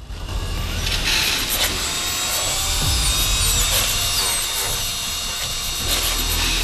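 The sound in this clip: A power drill boring holes into a skull, a loud continuous gritty whine with grinding, rasping noise that holds steady throughout, with no voices.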